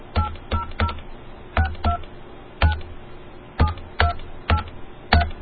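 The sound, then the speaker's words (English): Telephone DTMF dialing tones: a series of short, clear beeps in uneven groups, each a crisp dual-tone chirp, heard alone at moderate loudness. “Is that the one you just did the DTMF on?”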